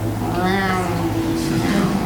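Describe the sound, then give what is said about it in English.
A voice imitates an old Volkswagen engine as the key is turned, producing one drawn-out, wavering, whiny cry much like a cat's meow rather than an engine catching. “So I rush out and I get in my old Volkswagen. And I turn the key, and it goes”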